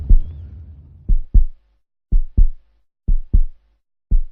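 Heartbeat sound effect: after a low opening rumble come four evenly spaced lub-dub pairs, each a deep, loud double thump separated by short silences, slow and steady with no voices.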